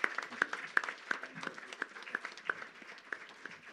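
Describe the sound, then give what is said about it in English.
Light, scattered hand clapping from a church audience welcoming a guest speaker during a service, with quiet, crisp individual claps in an uneven rhythm. “Please put your hands together this morning as we make welcome Dr. Sam Malomo.”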